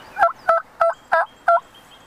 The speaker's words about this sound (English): They're eating bird seed along with the squirrel out of the bird feeder. Oh, they're so happy. Oh, yeah. Those are two turkeys that have adapted to their surroundings.